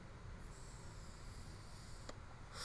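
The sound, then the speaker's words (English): Someone hits a dab, inhaling concentrate vapour as a faint, steady hiss that runs for a couple of seconds and ends in a brief, sharper burst. “Excuse me while I hit my dab.”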